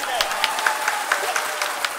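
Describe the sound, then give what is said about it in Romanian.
Applause from the ISRO mission team of experts as the Chandrayaan-3 lander touches down softly on the moon, steady clapping with a few sharper claps, heard beneath voices that talk over it. “sub ochii premierului și a milioane de oameni care urmăreau în direct pe internet misiunea, echipa de experți coordonatori a început să aplaude reușita.”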